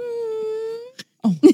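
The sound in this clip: A human voice imitates a dog whining with one sustained, steady, high-pitched whine, followed by a brief burst of speech.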